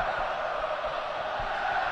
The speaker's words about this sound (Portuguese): a galera vai se manifestando, ouça, ouça, ouça o público aqui na Neoquímica Arena.